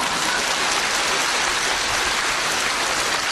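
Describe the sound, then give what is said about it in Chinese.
Applause after a joke: dense, even, hiss-like clatter of many hands that holds steady and fairly loud for the whole three seconds, with no distinct individual claps and no voices. “鼓掌。”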